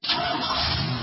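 A car engine starting, cutting in abruptly and settling straight into a steady, noisy running drone that holds an even loudness for about a second.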